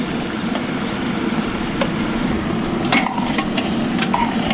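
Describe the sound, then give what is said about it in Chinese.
Chicken pieces stir-frying in a wok with garlic and sauce give a steady, dense sizzling hiss, broken by a few light scraping clicks of stirring. “将蒜子炒至金黄，下入我们的鸡块。将鸡块煸出香味后，下入提前备好的酱料。”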